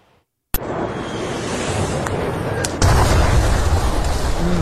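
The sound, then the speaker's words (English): Bunker buster bombs exploding: a sudden sharp blast cuts in after a moment of silence and swells into a sustained, roaring rumble, then surges louder partway through and keeps thundering to the end. “This is what these buster bunker bombs look like in action.”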